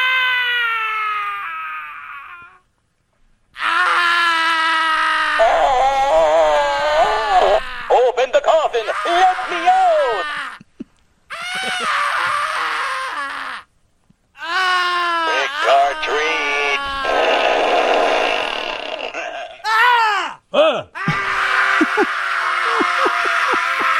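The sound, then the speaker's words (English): Scary creature groaning: long, wavering moans and wails in several bursts, some rising into cry-like tones, with short silences between them. “Scary sounds, man. Ah! Trigger Rich mentioned how Groaning Man sounds like Count Fartula, but constipated.”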